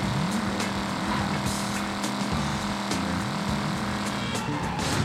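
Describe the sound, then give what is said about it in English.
Car engine revving while driving on a sidewalk: a loud buzzing drone that climbs in pitch again and again, as if through gear shifts, with a few sharp knocks cutting through. “Just drive on the sidewalk. damn, I'm about to, I'm about to ditch this car after this.”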